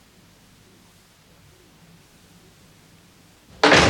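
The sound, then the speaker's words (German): A door is closed with a single loud, sharp thud near the end, breaking a stretch of low steady hiss. “Frage: Was tut sie da? Sie macht die Tür zu.”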